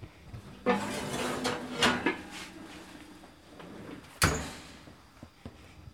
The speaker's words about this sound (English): I now have two very thick pot holders, and I'm going to pull that Dutch oven out of the oven.